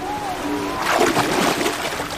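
Sea waves splash and churn at the shore where a pair of grey seals mate in the surf, a continuous noisy wash that swells louder through the middle before easing back.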